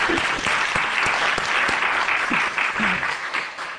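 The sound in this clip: Audience applause of thanks at a Christmas gathering, a dense, steady wash of many hands clapping, loud and even, thinning slightly toward the end.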